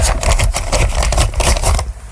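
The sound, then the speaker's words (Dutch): A small paper lottery slip is unfolded for an Easter draw, giving loud, dense crinkling and rustling that runs steadily for about two seconds. “Ik heb het loodje al gepakt. Oké. Ik vouw hem nu even open.”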